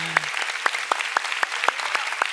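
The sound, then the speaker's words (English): Church audience applause: many loud claps land in an even, regular beat over a continuous wash of clapping. “Look, come on, let's give the Lord a big hand.”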